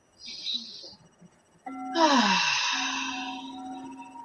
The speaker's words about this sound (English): Let's take a deep breath. Everybody take a deep breath.